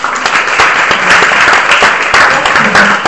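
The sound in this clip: Applause from an audience: dense, steady clapping that stays loud and even throughout, with no break and no clear voices over it.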